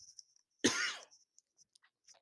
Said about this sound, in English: Apologize about that. Throat's very itchy today for some reason. I don't get why, but so I do apologize about the coughing.